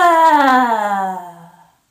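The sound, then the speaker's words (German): A loud human roar with the tongue stuck out during a breathing exercise: one sustained voiced cry whose pitch falls steadily as it fades out over nearly two seconds. “Und dann einatmen, Mund öffnen, Zunge rausstrecken und laut brüllen.”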